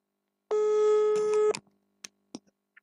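Ringing tone of a phone call being placed, heard as a single steady tone of about a second, followed by a few faint clicks.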